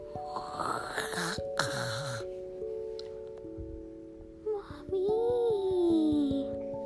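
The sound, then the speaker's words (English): A child's voice imitates a bear snoring while telling a bedtime-style story, making breathy wheezing and snorting noises, later drawn out into a wavering vocal moan. “they found Daddy Bear in the bed snoring and talking.”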